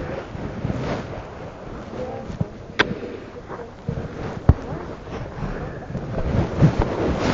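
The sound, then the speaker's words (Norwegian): Wind blowing outdoors by the sea near a canal, a steady, low buffeting rush across the microphone with a few brief knocks and clicks over it. “Det er skarpere luft enn man tror. Ja. Ja, det blåser litt da”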